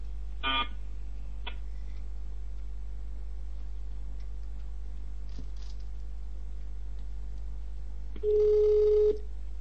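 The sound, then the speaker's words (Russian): A telephone connecting tone sounds on a call to an emergency gas service: a few faint clicks and short beeps over a steady low hum, then one clear, steady beep near the end. “Оставайтесь на линии, идет соединение.”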